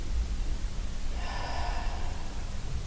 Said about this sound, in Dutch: Adem in.